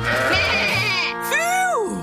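Sheep bleating: two drawn-out, wavering bleats, the second arching upward in pitch before dropping away.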